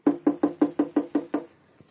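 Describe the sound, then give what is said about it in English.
Knocking on the locked door of an old historic house: eight quick, evenly spaced raps in a steady run, fairly loud, with no talk. “Try the door. Oh, it's locked. Try knocking.”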